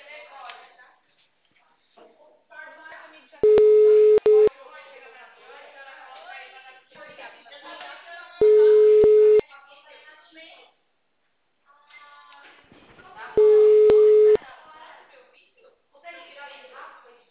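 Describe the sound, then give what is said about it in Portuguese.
A telephone all-lines-busy signal sounds as three steady, even-pitched tone bursts, each about a second long, spaced several seconds apart, with a recorded voice speaking between them. “Por favor, aguarde. Todas as linhas estão ocupadas no momento. Por favor, tente mais tarde.”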